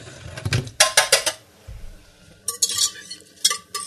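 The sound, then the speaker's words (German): A whisk being taken out in a kitchen while butter melts, bright metallic clinks and clatters in a few short bursts separated by quiet gaps. “lassen wir das Fett bzw. die Butter flüssig werden. Nehmen einen Schneebesen.”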